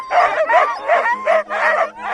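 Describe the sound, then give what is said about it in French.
Impatient sled-dog huskies wait before a sled departure on a snowy trail, giving a quick series of about six high, whining yelps that bend up and down in pitch, loud and close together. “Olivier Landais, avant le départ, quelques questions basiques pendant que les chiens s'impatientent.”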